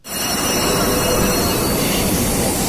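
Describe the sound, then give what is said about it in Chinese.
Steady, loud roar of a Fuxing high-speed train pulling away from platform 15 at Beijing South station. The broad rushing noise stays even throughout with no pauses. “早上8点55分，开往长沙南的高83次复兴号高铁列车从北京南站15号站台驶出。”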